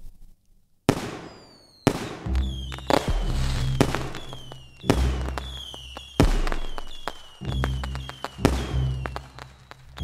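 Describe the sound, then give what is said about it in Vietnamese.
Fireworks burst in the sky at midnight on Lunar New Year's Eve as a rapid run of many sharp, loud booming bangs, each with a ringing decay, one after another, with no voices. “pháo hoa đang nổ đì đùng trên bầu trời đón chào khoảnh khắc giao thoa”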